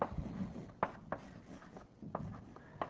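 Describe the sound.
Writing on a board during a mathematics lecture makes faint scratchy strokes and taps. A few short bursts are spaced unevenly.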